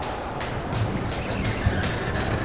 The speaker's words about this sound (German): Was gibt es alles auf dem Bahnhof? Willkommen in Frankfurt Hauptbahnhof.